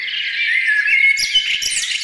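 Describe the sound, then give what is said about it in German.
Simulated birdsong: a continuous high, warbling chirping that runs loudly and steadily through the two seconds, with a few faint low clicks toward the end. “Ey, wir können ja ganz kurz mal das simulieren, als wären hier Vögel mit drin.”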